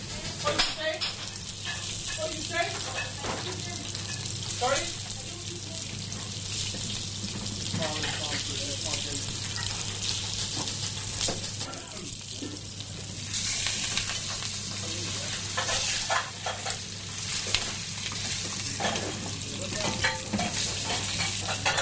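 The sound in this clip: Chicken pieces, boned except for the drumstick and wing bones, browning in a frying pan: a steady, loud sizzle with dense crackling and spitting that holds throughout, with occasional stirring noises.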